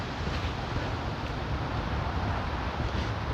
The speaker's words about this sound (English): But the wind, God, the wind.